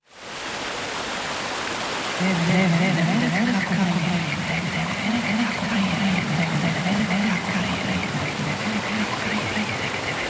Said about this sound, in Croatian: I tamo smo snimali reportažu i vratili smo se sa prekrasnim snimkama mlina, zvukova mlina.